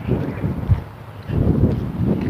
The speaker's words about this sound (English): There's wind.